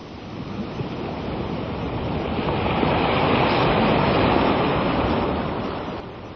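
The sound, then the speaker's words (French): A big ocean wave surges and crashes as a broad, roaring wash of water noise. It builds toward the middle, then eases off, and no other sound is heard with it. “Oh là là, la grosse vague!”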